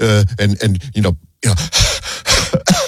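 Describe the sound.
A voice imitates the wheezing, gasping breaths of an asthma attack, a few harsh, breathy, strained gasps following a short stretch of talk.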